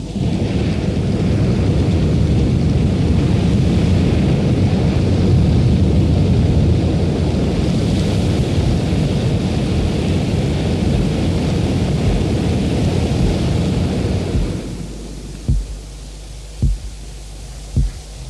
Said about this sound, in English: The armored personnel carrier flamethrower M132.